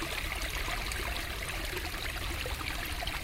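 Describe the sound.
Water of the Heiligersbrunnen spring in Hanover flows steadily with a soft, even rushing trickle. It is faint and continuous, with no distinct splashes or breaks.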